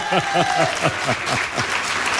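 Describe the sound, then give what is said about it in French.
Audience applause for factory workers from a swimwear maker at a labour rally. Dense, steady clapping fills the whole stretch, with a voice calling out over it. “Arena les maillots de bain, et vous pouvez les applaudir”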